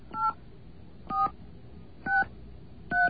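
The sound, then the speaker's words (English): Telephone keypad tones dial a toll-free number: four short, evenly spaced beeps, each a clean two-tone chirp, heard alone against a quiet low hiss. “So I get a phone line here. Get a happy dial tone. Okay. There we go. Okay. 1-888 VINE”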